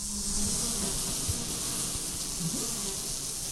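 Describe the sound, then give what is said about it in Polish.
Honey bees fly in and out of a hive at a beekeeping museum and open-air heritage park in Stróże, Poland. Their buzzing makes a dense, steady hum that stays even throughout, with no voices. “tu jest miodku troszkę, można pyłku na koszyczkach, o tutaj tą rurką na przykład akurat sobie wychodzą na zewnątrz i przychodzą z tymi produktami do ula.”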